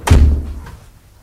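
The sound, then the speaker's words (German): A door into a house shuts with a single heavy, low thud, short and loud, followed by a brief fading tail. “Hier durch die Tür.”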